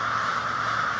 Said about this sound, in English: That is the sound of over 10,000 crows of two species getting ready for bed.